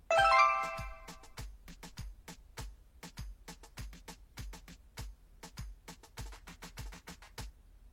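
A brief ringing chime sounds once at the start as a go signal in a practice exercise, then gives way to many sharp, rapid clicks or taps that continue to the end.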